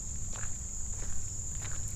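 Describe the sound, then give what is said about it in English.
Soft footsteps walk down a path outdoors, a faint and fairly even tread, set against a steady, high-pitched chirring of insects that runs throughout. “So now I'm walking back down the path that we usually go the other direction in.”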